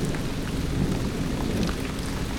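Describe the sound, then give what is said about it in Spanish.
Torrential rain pours on a forest during a thunderstorm with wind, a dense, steady roar of hiss with no breaks. “Una tormenta se desata, el viento agita las ramas de los árboles, una lluvia torrencial cae sobre el bosque.”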